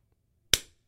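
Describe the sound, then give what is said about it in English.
A single sharp hand clap rings out once and decays quickly, with no other sound around it. “I was applauding the whorishness.”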